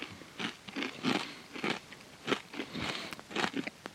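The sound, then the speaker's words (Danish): Crisp crunching bites into a small potato chip topped with cheese, many sharp, dry cracks in an uneven rhythm, alone and fairly quiet. “i Aalbæk, og øh, ja, lad os da prøve at smage den på en lille robotchips.”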